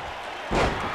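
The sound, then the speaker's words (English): A single heavy slam lands halfway through as a wrestler is driven down onto the ring at a wrestling event. The thud is sudden and broad, and the louder noise stays up after the impact. “And slams him down.”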